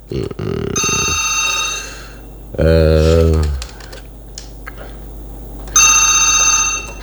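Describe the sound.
A telephone rings in a studio during a call-in segment, with two bursts of bright electronic ringing separated by a pause, and a short lower voiced sound in between.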